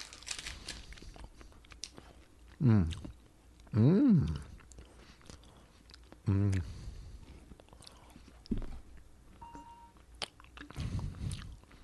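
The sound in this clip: Close-miked biting and chewing of a sweet food that tastes like white chocolate, with moist crunches and a few loud vocal sounds at intervals, and people talking.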